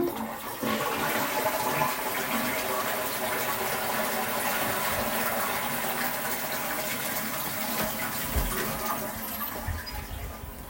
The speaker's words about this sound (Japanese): たっぷり出てますねじゃあ流していきます。